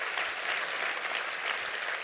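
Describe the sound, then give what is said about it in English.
A church audience clapping their hands in a dense, steady burst of applause that holds at an even level for about two seconds, with no voices standing out. “Would you clap your hands and say amen to that?”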